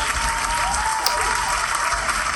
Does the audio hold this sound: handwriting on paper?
no